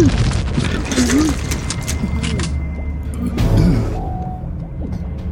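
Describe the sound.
Gunfire in a shooter video game against Nazi mutants, with a flamethrower also mentioned. Bursts of shots and booms come under loud, excited shouted voices.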